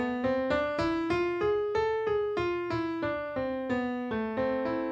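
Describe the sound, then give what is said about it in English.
A harmonic minor scale played note by note on a plucked-sounding pitched instrument, many evenly spaced notes that climb and then descend, each with a bright attack and a short decay, moderately quiet and without voices. “You've probably heard a harmonic minor scale before, even if you didn't know what it was called. It sounds like this.”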